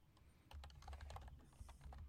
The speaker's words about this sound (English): There, I had to type again.